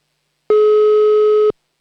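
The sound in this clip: A single steady telephone line tone sounds after a number is dialed: one even, mid-pitched electronic beep lasting about a second, clean and alone with no voices.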